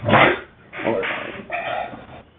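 Dogs bark in three short, muffled bursts with brief pauses between them.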